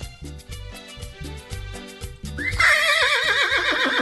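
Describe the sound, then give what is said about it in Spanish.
A man imitates a horse with a loud, trembling whinny full of vibrato. It bursts in after a rhythmic thumping music beat and continues over it. “Hasta un relinchido se me salió.”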